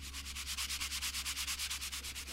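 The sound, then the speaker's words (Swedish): Sanding down body filler on a car repair in a garage produces many fast, even rasping strokes in a steady back-and-forth rhythm, a bright hiss with no voices. “Sliparbetet tar aldrig slut. Så fort han slipar ner spackel vid en lagning finns det alltid en ny att fortsätta med.”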